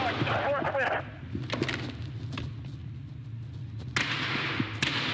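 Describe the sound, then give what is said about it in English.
Gunfire in a police shootout with two suspects holed up inside a deli: a few sharp, loud cracks burst out, most clearly in the later part, over voices and background noise. “hundreds of rounds exchanged for nearly three tense hours.”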